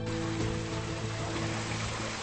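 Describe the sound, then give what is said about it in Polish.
Water sprays like light rain onto plants in a warm, humid palm house, a steady, even hiss of droplets with no breaks and no voices. “Dobrze tak deszczyk na nią.”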